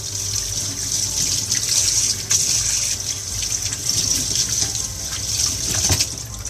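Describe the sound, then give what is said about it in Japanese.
Tap water running steadily into a sink while coffee-soaked cloth lunch wrappings are washed, a continuous hissing rush that stays even throughout, with no talking. “コーヒーがこぼれたおかげでバイキンマンとドキンちゃんとホラーマンのお弁当包みがコーヒーまみれになりました今洗ってます”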